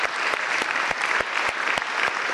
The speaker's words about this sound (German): Für den dürfen Sie nochmal klatschen